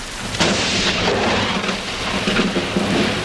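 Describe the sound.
Thunder rolls in a loud, sustained low rumble over the steady hiss of heavy rain, with a few stronger swells in the middle and no voices.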